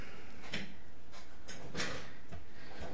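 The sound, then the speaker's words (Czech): A window being closed, heard as a few short clunks and sliding knocks in an uneven rhythm, with no voices. “teď jsem tady musel zavřít okno”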